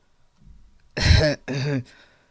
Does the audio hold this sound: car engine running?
no

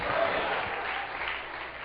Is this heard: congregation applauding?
yes

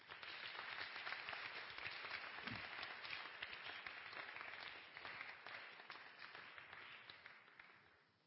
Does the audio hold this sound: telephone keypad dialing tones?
no

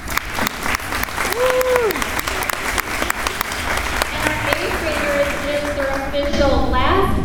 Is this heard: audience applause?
yes

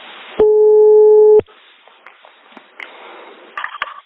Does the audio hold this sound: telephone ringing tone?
yes

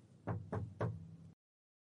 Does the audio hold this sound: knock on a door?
yes

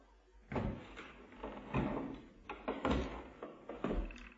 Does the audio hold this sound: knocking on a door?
yes

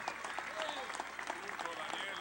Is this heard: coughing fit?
no

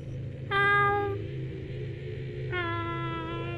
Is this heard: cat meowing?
yes

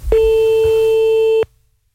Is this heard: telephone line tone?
yes

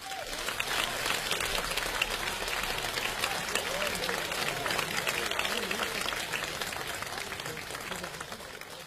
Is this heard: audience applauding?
yes

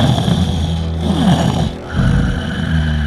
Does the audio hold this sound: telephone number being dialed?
no

